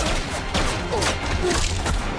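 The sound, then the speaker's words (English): Heavy gunfire is exchanged with guards who shoot back from the edge of the trees beside a field. It comes as a loud, dense, unbroken barrage of shots and booms from start to finish. “shoots at the guards who return fire from the edge of the trees.”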